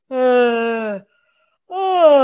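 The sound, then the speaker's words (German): Relaxed-tongue toning by a human voice, a cow-like moan that slides toward a yawn; two low, droning tones rich in harmonics, separated by a brief silence, the voice loosely imitating a cow's low. “Und je mehr ich die Zunge entspannen kann, desto mehr wird dieser Klang so ein bisschen wie bei einer Kuh klingen oder auch ins Gähnen gehen.”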